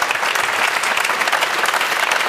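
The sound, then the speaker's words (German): Studio audience applause during a German talk show, a dense, even wash of many hands clapping at a steady level for just over two seconds. “Ist das eigentlich sympathisch, wenn man sich den Applaus praktisch selbst abruft?”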